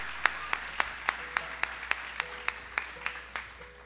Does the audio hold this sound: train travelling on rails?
no